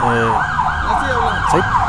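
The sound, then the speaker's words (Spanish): An ambulance siren wails loudly and continuously, its tone sweeping up and down in rapid repeated cycles over a low rumble of road noise. “eso que acaban de escuchar efectivamente era una ambulancia”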